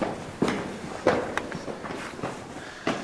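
Footsteps climb a short flight of stairs in a cave: a few soft, irregularly spaced steps, fairly faint, with no talk.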